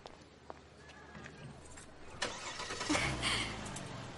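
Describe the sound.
A car engine starting after its disconnected battery is reconnected: a few faint clicks, then a sharp burst as it cranks, and the engine catches and rumbles louder, running on to the end.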